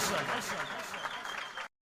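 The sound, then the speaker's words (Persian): Audience applause, a dense, steady wash of many hands clapping together, loud and continuous for under two seconds before cutting off abruptly. “به افتخار اسباب و دستخوشگلا همه با هم بزنید”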